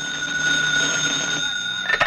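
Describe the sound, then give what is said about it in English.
A telephone rings with a steady, bright, bell-like tone held at an even level, heard alone without voices. “This week, I'll be phoning homes all over Metro with cash prizes from $5 to $25.”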